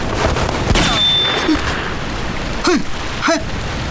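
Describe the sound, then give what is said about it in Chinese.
Gunfire in a small enclosed space: a sharp, loud crack bursts out of a dense, noisy background, with a few shorter sharp bursts after it. “开枪之前也不通知一声，这么小的空间弹头乱飞，会伤到人的。”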